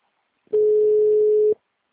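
A telephone ringback tone while a call is placed: one steady, mid-pitched tone of about a second, heard alone, with silence before and after.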